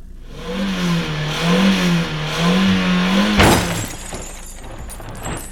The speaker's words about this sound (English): You just drove through a doorway!